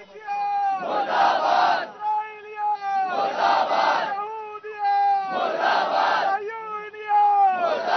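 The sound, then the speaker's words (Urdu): Crowd chanting slogans against America and Israel at a protest: loud, rhythmic bursts of massed voices come in about four regular waves, with sustained voices carrying between them. “امریکہ اور اسرائیل کے خلاف زبردست نعرے بازی بھی کی گئی۔”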